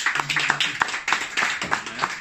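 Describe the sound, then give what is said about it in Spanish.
Church audience clapping hands in praise: a rhythmic run of fairly even claps, several per second, moderately loud and brief. “Vamos a dar palmas al Señor por eso.”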